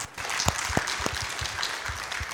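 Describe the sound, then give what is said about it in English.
Audience applause honoring great-grandfathers at a gathering: a dense, steady patter of many hands clapping at moderate loudness, with a few louder claps standing out, no voices over it. “Let's give a round of applause to them also.”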